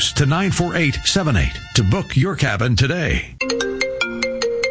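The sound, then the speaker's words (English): A cell phone ringtone, a bright electronic melody of short, crisp notes, cuts in right after a voice finishes speaking and plays alone to the end. “That's not your cell phone ringing.”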